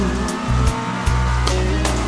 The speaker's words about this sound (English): I can barely see through the pouring rain.